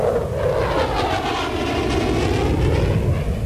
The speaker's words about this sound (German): F-16 Kampfjets aus Spangdahlem und Büchel fegen über die Landschaft, üben ungeniert für den Ernstfall 5 Tage in der Woche.